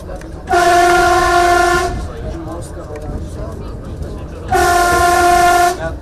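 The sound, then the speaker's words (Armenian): Train horn of an Armenian passenger train heading toward a new district of Yerevan: two long, loud blasts with steady tones, separated by a stretch of continuous rail rumble. “հայկական գնացքներն այսօր ապագային տանում”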